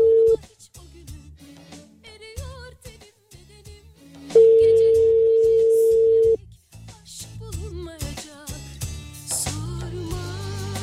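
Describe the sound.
Ringback tone on an outgoing phone call: a brief burst of steady tone at the start, then one long, level tone of about two seconds, set against other background sounds.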